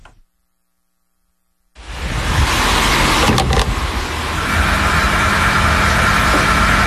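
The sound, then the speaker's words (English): Diesel fuel being pumped into a vehicle: after a short silence, a steady mechanical whir and rushing flow start abruptly and hold at an even level, with a faint hum underneath. “This is the sound of the most important fuel in the world being bought at a price it's never been bought at before. Diesel moves the lorries that stock your supermarket,”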